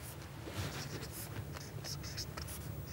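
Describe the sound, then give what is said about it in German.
A pen writes notes quickly in the margin of a page, making faint, scratchy strokes that come as many short, quick bursts over a quiet background. “Ich schreibe die schnell an den Rand, dann können wir damit arbeiten.”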